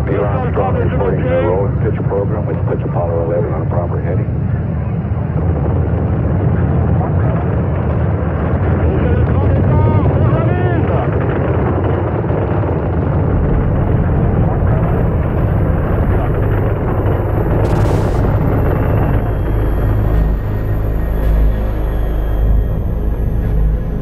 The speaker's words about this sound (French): Lift-off on Apollo 11. Merveilleux départ, dans des conditions formidables. Les bruits commencent à nous parvenir maintenant.